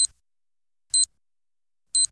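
Hourly time signal on an Albanian radio station marking 18:00: three short, high-pitched electronic beeps spaced evenly about one second apart, with silence between them.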